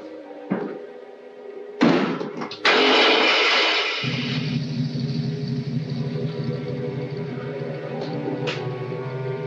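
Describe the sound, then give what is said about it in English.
A car engine starts after a few sharp thumps and door-like slams, then settles into a steady, low, humming idle that runs to the end with no talking. “Start the motor.”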